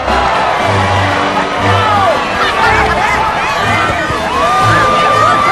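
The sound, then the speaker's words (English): Cartoon animals cheering for Melman, a lively crowd of excited shouts and whoops over a steady bed of babble that stays loud throughout. “The other animals cheer Melman.”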